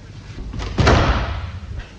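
A door being closed gives a single dull thud that rises out of a steady background hiss and then fades away.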